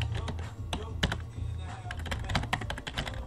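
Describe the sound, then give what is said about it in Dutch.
Rapid clicking from a computer keyboard as someone touch-types with all ten fingers, a dense run of many light keystrokes with no talk. “Als je veel klikken hoort, ik tik met altijd een 10 vingertik systeem.”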